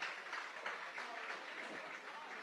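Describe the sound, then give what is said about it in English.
Fans applauding at a high school football game as an injured player walks off the field, a steady, faint wash of clapping that holds evenly throughout. “Gets a nice round of applause from the fans.”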